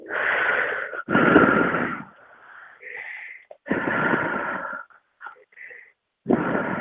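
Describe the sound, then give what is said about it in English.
Deep breathing during a guided healing session: a few long, airy rushes of breath, drawn in and released with short pauses between and softer breathy sounds in the gaps. “And three nice deep breaths.”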